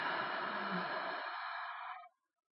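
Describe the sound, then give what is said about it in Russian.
A deep breath, drawn in through the nose and let out through the mouth, sounds as one long, airy, noisy rush that holds steady and then cuts off abruptly. “выдыхая через рот с шумом как можно глубже. Дышите в удобном для вас ритме. Можете делать это прямо сейчас вместе со мной. Так, глубокий вдох. Выдох.”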